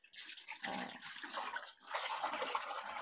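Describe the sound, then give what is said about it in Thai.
Water runs and splashes as something is rinsed until the water runs clear, a quiet, steady wash with a brief lull midway before the flow resumes. “อันนี้ก็เช่นกันนะคะเราก็ล้างเขาจนกว่าเขาจะใสเลย”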